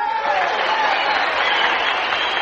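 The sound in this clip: Audience applause welcomes a guest onto the Grand Ole Opry stage, a loud, dense and steady wash of many hands clapping with crowd noise that holds evenly throughout.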